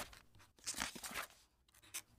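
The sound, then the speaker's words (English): Pen scratching across paper as a letter is written by hand: irregular, dry, scratchy strokes of varying loudness separated by short pauses. “We hear him writing a letter to the church in a city called Ephesus.”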